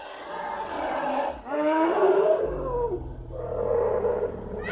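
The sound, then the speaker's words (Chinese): An elephant calls out after being fed: a few long, loud harmonic bellows that waver in pitch, following one another with only brief gaps and no voices. “可算叫了，这大象，终于啊！”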